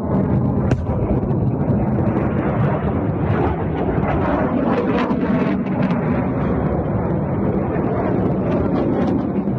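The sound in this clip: Missiles launching from three rocket launcher batteries in rapid succession: a dense, continuous loud roar with occasional sharper blasts standing out, sustained throughout.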